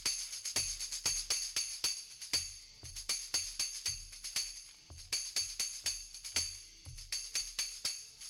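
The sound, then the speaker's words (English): Tambourine part in a rock song: crisp, bright jingle shakes repeating in a steady rhythmic pattern over soft, low pulsing beats, fairly quiet overall. “There's also a tambourine part adding to the rhythm.”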